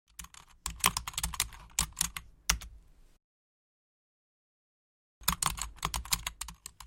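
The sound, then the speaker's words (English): Rapid clicking of a computer keyboard being typed on, a dense burst of keystrokes that runs for about three seconds, stops into complete silence, then resumes just as briskly near the end. “Suddenly wanting to see the in-flight movie again, he typed in The Descendants on his computer.”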